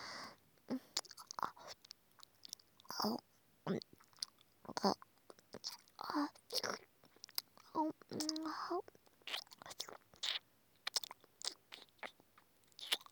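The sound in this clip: Close, quiet chewing of very hard food, many sharp crunches and bites in irregular clusters, with soft breathy sounds between them.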